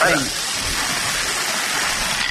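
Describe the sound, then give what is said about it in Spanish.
Numbered balls tumble inside a spinning lottery drum, making a dense, continuous rattling rush that stays at an even, fairly loud level throughout. “Pero mientras tanto, el bombo.”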